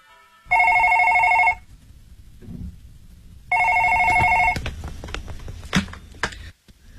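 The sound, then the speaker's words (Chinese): A telephone ringing: two loud, trilling electronic rings of about a second each, a few seconds apart, followed by a few clicks and soft rustling. “老公、 啊、 是郑焕的电话。”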